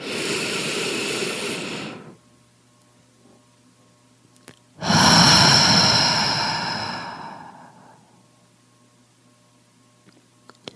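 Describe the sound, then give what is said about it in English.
Deep breathing in a slow, counted relaxation exercise: a long, loud hissing inhale, a stretch of near silence while the breath is held, then a longer whooshing exhale that gradually fades away. “And now we're going to take a deep breath to the count of four. We're going to hold it for the count of four and release it for the count of four.”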